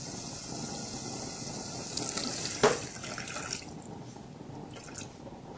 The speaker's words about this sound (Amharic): ይሄን ለዚህ የሚሆን ውሃ ጨምራለሁ። ግማሽ ሊትር ይሆናል።